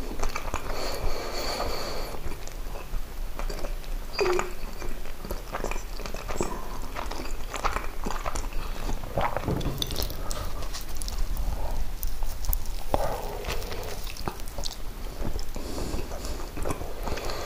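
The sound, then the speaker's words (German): Biting and chewing a bread roll, with steady crunchy munching and scattered crackles and clicks at an even level, and no talk. “Kann ich also in Ruhe mein Brötchen essen, meinen Kaffee trinken.”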